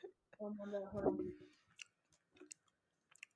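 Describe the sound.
Soft chewing of a bite of cake, with a few faint, moist clicks and smacks scattered after a brief louder voiced stretch near the start.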